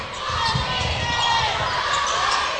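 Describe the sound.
A basketball is dribbled on the court during a game, with repeated low thumps under a steady wash of crowd noise and chatter.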